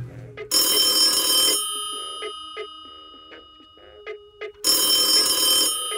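A telephone ringing on an outgoing call: two long, loud, shrill electronic bell bursts separated by a quieter gap with short tonal blips.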